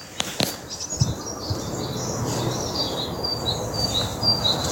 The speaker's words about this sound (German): Das singen die Vögel.